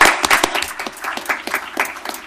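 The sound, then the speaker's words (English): Audience applause at a Portland sister-city event with Khabarovsk, honoring students who teach Russian; dense, steady clapping fills about two seconds with no talk over it. “Let's hear it for them again.”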